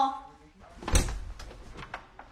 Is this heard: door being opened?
yes